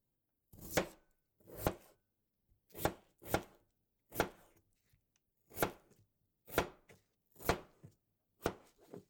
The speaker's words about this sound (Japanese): よし、では次はジャガイモを小さくしましょう。